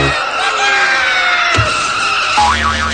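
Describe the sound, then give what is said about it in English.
The whammy sound effect from a spin-the-board game show plays as a loud, cartoonish burst of sliding electronic tones. It ends in a squealing, wobbling pitch warble. “Stop. Stop at another whammy.”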